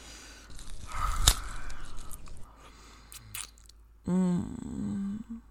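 Wet biting and chewing of flesh from a chest, with one sharp crunch early on followed by steady moist smacking and gnawing, then a sustained low groaning tone near the end.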